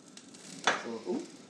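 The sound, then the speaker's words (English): Food quietly bubbling and simmering in a pan after the heat is turned down, with a bit sticking on the bottom. A soft, continuous sizzle carries a brief louder sputter near the middle and a smaller swell just after. “So you want to keep it sort of just simmering. Bubbling, very quiet, yeah. Quietly bubbling.”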